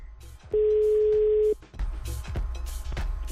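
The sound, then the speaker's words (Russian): Telephone dial tone as a call is being placed: a steady, single-pitched hum holds for about one second, then cuts off into handling clicks and low rumbling noise. “Так, получается, звоним Якубовичу, ребят. Это у нас заказ.”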